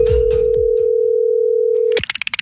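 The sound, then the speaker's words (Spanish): A telephone dial tone hums steady and loud for about two seconds while a call is placed, after a few handset clicks, then breaks into a rapid run of short dialing beeps. “Lo estamos llamando a Rosa Melo a ver si lo quiere aceptar en su casa. Esto es la clavada telefónica.”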